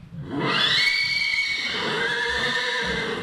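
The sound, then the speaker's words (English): Horses neighing as a chestnut mare is greeted by two stallions at Lane's End Farm near Lexington: a single loud, long whinny with a faint low rumble beneath. “A chestnut mare is greeted by two stallions at Lane's End Farm near Lexington.”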